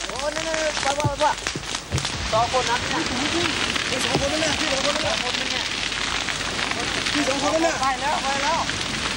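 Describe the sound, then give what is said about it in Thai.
An intense fire burns at night, giving off a continuous crackling, rushing roar that is dense with sharp pops, while people talk over it throughout. “ีปัจจัยหลายประการที่ทำให้ไฟในคืนนี้ค่อนข้างจะรุนแรง”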